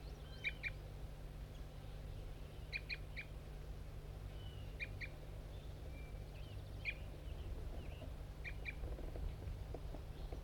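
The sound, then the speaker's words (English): A bird gives aggressive fight notes in a field recording: faint, sharp, high paired notes repeat in several spaced clusters over a steady low hum. “Start recording bird 5-3 giving aggressive fight notes.”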